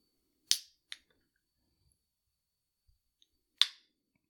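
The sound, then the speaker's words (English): A hard-to-open beverage container gives crisp snaps and clicks: three sharp, high cracks, two close together and one later, with a couple of faint ticks between them, otherwise quiet. “Okay, beverage has been opened, and that we can now continue the show. It was hard to open.”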